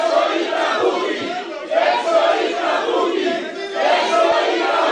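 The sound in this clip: An audience shouts loudly to drive out a person who interrupted the event. The voices join in a sustained, chant-like roar that swells in repeated waves.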